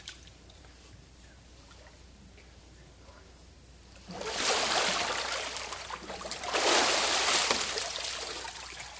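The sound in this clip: Water splashes and sloshes as a person is fully immersed during a baptism, two loud surging rushes of water following a quieter opening stretch.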